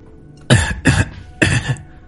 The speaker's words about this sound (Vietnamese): thủ lĩnh ám các chậm rãi thức tỉnh, nhẹ giọng ho khan.